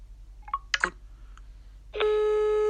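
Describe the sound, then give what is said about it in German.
An iPhone starts a phone call after a double tap on its back: a few short electronic clicks and blips, then a brief pause and a sustained, steady tonal call signal that holds loudly to the end. “Und so kann man blitzschnell eine Person über Doppeltippen auf die iPhone-Rückseite anrufen.”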